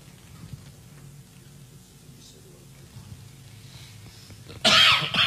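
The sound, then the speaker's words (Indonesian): A loud, harsh cough bursts out near the end, following several seconds of low, steady background noise. “Nah ini ujian batuk ya.”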